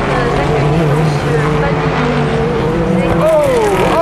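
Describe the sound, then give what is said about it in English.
Engine roar of a Nissan GT-R race car on a track as it smokes, runs into the gravel and gets going again. The pitch sweeps up and down with the revs, loud throughout, with voices mixed in. “Oh, here goes one of the GTRs. Smoking all over the place, into the gravel and going again.”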